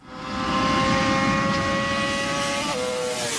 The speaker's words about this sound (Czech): se svojí Hondou jezdí na okruhu rychlostí až 270 km v hodině.